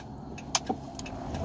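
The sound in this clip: Faint low road rumble inside a car being driven, steady throughout, broken by two brief soft clicks early on.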